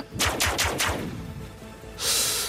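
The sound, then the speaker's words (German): Gunfire in a video game, shots aimed at a creature's wings: four quick, sharp bangs fire in close succession and ring away, followed by a short bright hissing burst. “Also, ich schieße ihn in die Flügel. Klappt das?”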